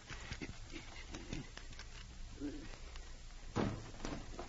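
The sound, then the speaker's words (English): A safe door being opened: a few soft clicks followed by a louder metallic clunk near the end, heard over a low steady hum. “Hurry up and open that safe.”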